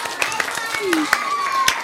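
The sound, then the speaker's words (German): Scattered clapping greets a correct quiz answer, a few sharp, irregular claps under a lively voice speaking over them. “Oh, bravo. Applaus, Applaus.”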